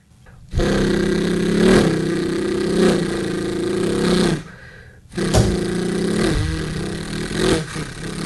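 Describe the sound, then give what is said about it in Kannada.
A vehicle engine revving in two long sustained bursts, the second starting after a brief dip in loudness, with a steady rumbling tone throughout and no talk. “ಅನಂತರ ಅಲ್ಲಿ ಇನ್ನೊಂದು ಗಾಡಿಯನ್ನು ಕಂಡೆನು, ಇದರ ಶಬ್ದವು”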